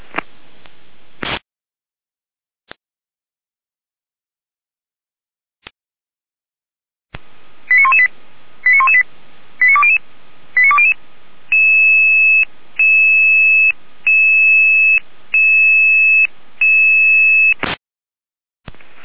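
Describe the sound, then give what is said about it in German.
Fire brigade alerting tones sound alone: after a few isolated clicks, a quick run of short electronic beeps gives way to a long series of loud, evenly pulsed steady tones. “Einmal mit Alarmierung.”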